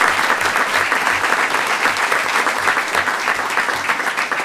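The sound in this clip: Applause rings out for an assistant swim coach at a Board of Education recognition of a championship girls' swim team, steady dense clapping that fills the whole stretch.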